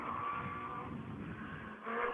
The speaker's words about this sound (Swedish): Här kommer en bil på kvällen.